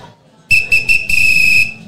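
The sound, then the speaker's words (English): A whistle is blown, three short shrill blasts in quick succession followed by one longer sustained blast, loud and piercing. “everybody looked at me because I blew the whistle”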